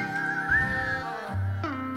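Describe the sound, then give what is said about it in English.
People whistle together, a thin, wavering, high whistled line, fairly quiet, over sustained instrumental tones. “Everybody whistle now.”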